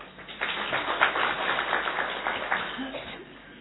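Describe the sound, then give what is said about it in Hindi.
Children at a Hindi school clap their hands on cue, a muffled flurry of quick, irregular claps that swells and then thins out over a few seconds. “हाँ, ताली बजाओ.”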